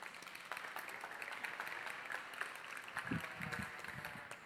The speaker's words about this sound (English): let's give her a hand as she comes